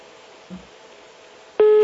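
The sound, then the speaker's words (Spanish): A telephone call cuts off: faint line hiss and a soft low thump give way to a single short, loud electronic disconnect tone at the very end. “Y se le corta la llamada.”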